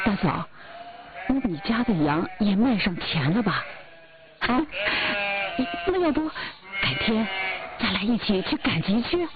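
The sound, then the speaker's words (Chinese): Sheep bleating on a farm, a run of loud, wavering, tonal bleats that come in quick clusters with short gaps between them. “小羊，小羊，你真好玩。”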